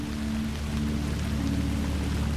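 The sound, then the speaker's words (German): Steady rain drums down in a dense, even patter that holds at a constant moderate level throughout, with no individual drops standing out and no voices. “begleitet von dem gleichmäßigen Trommeln des Regens.”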